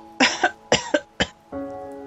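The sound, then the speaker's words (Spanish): Three loud, raspy coughs stand for a lamb coughing in a farm story, the first two each breaking into a double burst, followed by a steady tonal hum. “Entonces el cordero tosió.”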